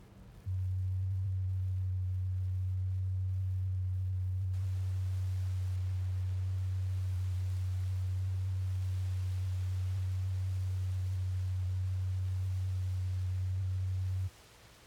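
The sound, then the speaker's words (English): A low, pure sine test tone from a turntable test record, held perfectly steady for about fourteen seconds over faint surface noise, then stopping abruptly. “A satisfactory turntable should permit you to hear the following tone.”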